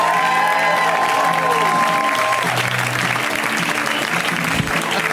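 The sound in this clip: A comedy club audience applauds and cheers a new comic taking the stage, with loud, dense, sustained clapping that fills the whole clip at an even level.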